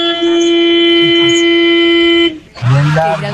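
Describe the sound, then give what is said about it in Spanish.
A long, loud car horn: one steady, buzzy, pitched blast held for about two seconds. It cuts off abruptly and a man starts talking. “Analicemos ese pito. ¿Otro? Es un pito que suena fuerte, un pito oiga largo.”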